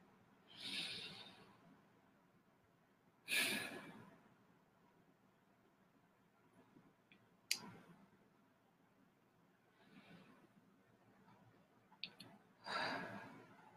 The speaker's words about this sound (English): I'm going to take a moment. I'm going to take a deep breath, and you're welcome to take one with me.